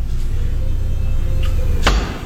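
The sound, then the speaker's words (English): An axe thrown at a target at Enid Axe lands with a single sharp, loud thud near the end, cutting through a steady low background hum. “So everything that you could possibly need before you throw some axes. We're going to give it a shot. You want to go first? I'll go first.”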